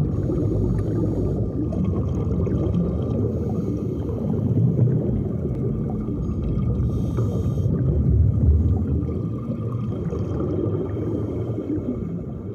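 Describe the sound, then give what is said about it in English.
A scuba diver breathing underwater, his exhaled bubbles pouring out in a continuous gurgling, rushing roar that swells and eases in long waves, with brief brighter hissing bursts partway through. “That was the sound of a scuba diver breathing underwater. A scuba diver. So those bubbles coming out were actually his exhales coming out of his mask.”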